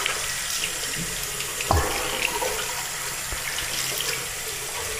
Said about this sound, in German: Ja, Hände waschen, gehört ja dazu.